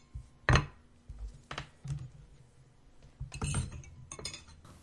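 Spoon clinking against a dish while porridge is eaten: several sharp, bright clinks at irregular intervals, fairly faint, with soft scraping and handling noises between them.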